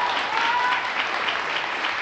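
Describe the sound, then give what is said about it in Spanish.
Applause from a church audience during a sermon, a dense, steady patter of many clapping hands that holds at an even, fairly loud level for about two seconds without a break. “¡Aplauda entonces!”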